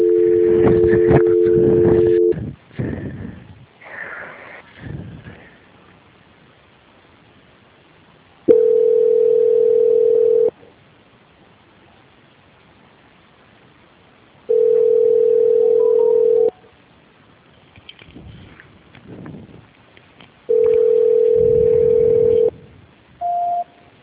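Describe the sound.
Telephone tones sound during a call transfer. A steady tone plays at the start, then three long, evenly spaced tones of about two seconds each follow, separated by quiet gaps. A short, higher beep closes the sequence.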